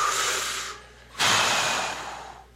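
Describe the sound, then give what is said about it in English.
A group of people taking a deep breath together, heard as two long airy breaths. The second comes after a short pause and is louder, then fades gradually. “Let's take a breath.”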